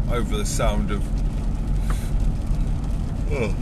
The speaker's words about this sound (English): over the sound of this car, I feel like I need to project more